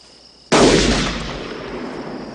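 A single distant gunshot gives a sharp, loud crack about half a second in, followed by a long rumbling tail that slowly fades to the end. There are no voices.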